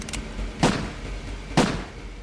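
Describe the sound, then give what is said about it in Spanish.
Gunshots: two sharp, evenly spaced bangs stand out against a faint, steady background. “Mientras él intentaba volver a la casa, ella entró y disparó el arma dos veces más.”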